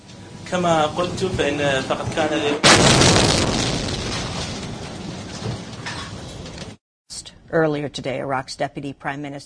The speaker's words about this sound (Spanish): la conferencia de prensa fue interrumpida cuando un proyectil explotó a solo 45 metros de donde se llevaba a cabo la reunión.